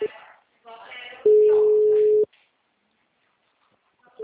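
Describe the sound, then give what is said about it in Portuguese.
A single ringback tone on an outgoing telephone call: one steady, mid-pitched tone lasting about a second, following a voice and then giving way to silence before a voice returns. “Estou te ligando.”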